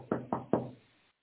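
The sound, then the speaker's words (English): Knocking on a door: three firm, evenly spaced raps, each loud and sharp at the start, with the last one ringing out longest before the sound fades to silence. “Jesus said, behold, I stand at the door and knock.”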